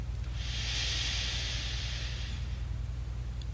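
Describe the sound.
A slow inhalation during a guided muscle-relaxation exercise: a soft, airy hiss that swells and fades over about two seconds above a steady low hum.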